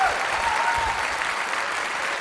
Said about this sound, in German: Vor so einem Applaus muss man noch nicht flüchten.